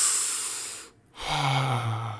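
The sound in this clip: Slow, deep breathing done as a calming exercise for anxiety: two long, airy breaths split by a brief near-silent pause, quiet and heard alone without talk.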